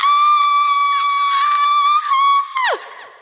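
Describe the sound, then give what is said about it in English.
A person screams loudly into a microphone, a sustained, high-pitched shriek held for over two seconds before its pitch drops sharply and it breaks off into quieter sounds. “Sorry, I screamed into the microphone so much, it basically told me to shut up.”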